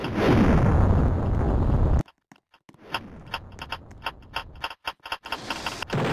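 A video-game explosion roars loudly for about two seconds and cuts off abruptly. It is followed by a run of sharp mechanical clicks and short gunfire-like bursts at irregular intervals.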